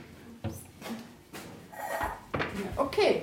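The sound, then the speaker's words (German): A pot and a large plate are set down on a table, giving a few short clattering knocks of crockery against the tabletop, spread out under ongoing talk. “Jetzt haben Sie hier gerade schon einen Topf mit einem riesen Teller äh, vor uns hingestellt.”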